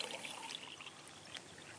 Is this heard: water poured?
yes